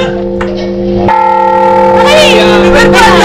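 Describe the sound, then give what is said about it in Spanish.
A clock bell strikes the last quarter hour before the midnight chimes that bring in the new year. One deep, ringing strike sustains with a long tail, and people talk over it. “Ese es el último cuarto, ahora vienen las campanadas.”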